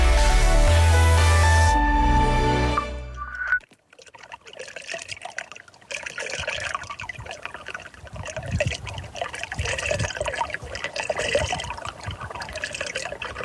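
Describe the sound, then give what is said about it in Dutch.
Water runs along a path in Wassenaar and drops straight down into a small vertical whirlpool, giving a continuous gurgling trickle with uneven splashy texture. A brief burst of music cuts off before it. “Water dat langs een pad stroomt en plots recht omlaag valt. In een soort verticaal kolkje. Alsof het water naar het binnenste van de aarde stort.”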